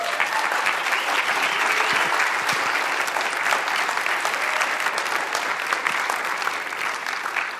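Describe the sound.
A church audience applauds to welcome a visiting team to the stage, with loud, dense, continuous clapping that holds steady throughout without any pause.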